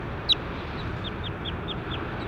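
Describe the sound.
A bird calls: one short, sharp chirp, then a run of faint, evenly spaced chirps at a similar pitch over a steady hiss of background noise.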